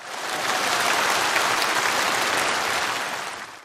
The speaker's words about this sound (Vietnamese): đáng được cho một tràng pháo tay